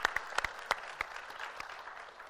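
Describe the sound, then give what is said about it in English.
Applause from a church audience for the teen helpers. A few sharp, distinct claps open it, then the clapping thins into a quiet, scattered patter. “So give it up for our teens, man. They're amazing.”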